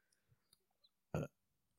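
A single short, loud burp bursts out against near silence, with only a few faint clicks before it.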